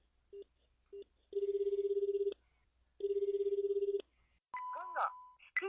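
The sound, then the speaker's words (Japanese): Telephone call being placed: two short beeps, then two trilling rings of the line with a gap between them, followed by a voice and a steady tone. “早速お電話しましょう”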